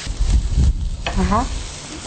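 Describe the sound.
Green beans hit a hot pan already holding chicken and carrot, setting off a brief crackling sizzle while a voice speaks for a moment.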